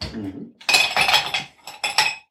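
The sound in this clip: Fresh ice cubes go into a frosted glass taken from the fridge, making a few bright clinking and rattling bursts separated by brief pauses.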